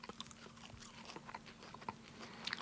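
Faint, crisp crunching of someone chewing freshly picked Jack-by-the-Hedge leaves. Small bites and irregular clicks are spread across a few seconds, with no talking.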